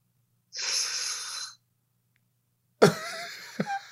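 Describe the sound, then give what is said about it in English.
A person acts out a labored inhale for effect, drawing a harsh, hissy breath for about a second, then after a pause making a few brief strained, voiced sounds. “The labored inhale.”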